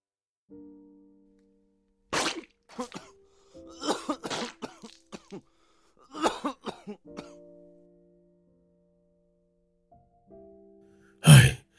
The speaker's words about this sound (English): Then he coughed up more blood.